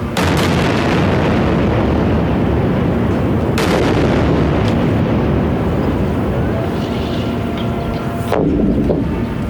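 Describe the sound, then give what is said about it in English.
Explosions from an Israeli attack in the Gaza Strip form a loud, continuous roaring rumble, broken by a couple of sharper bursts. “This is the Israeli attack.”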